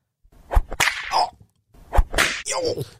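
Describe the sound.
Two sharp whip cracks, each followed by a swishing rush, sounding loud and alone.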